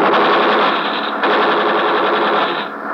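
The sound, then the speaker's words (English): Automatic gunfire as warning shots fired in front of a man during a ship search, a loud, dense, continuous rattling burst that holds steady for several seconds with a slight drop near the end. “We fire in front of him.”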